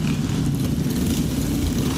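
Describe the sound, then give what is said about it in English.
Engine drone of a 125 cc Honda Grom motorcycle playing from a video: a steady, loud, low rumble that is continuous throughout and carries no talk. “Guys riding those 125 cc Honda Grom.”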